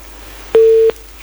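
Telephone busy tone after a call was cut off: a loud, steady mid-pitched beep holds for a moment, then after a short gap the next beep begins, with no voices.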